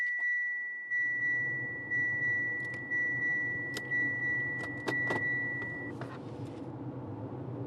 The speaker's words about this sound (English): So I'm driving the long, dry, but relatively straight inland route between Perth and Geraldton.